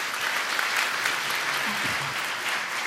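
An audience applauds to welcome a guest, with dense, steady clapping that stays loud and even for the whole stretch.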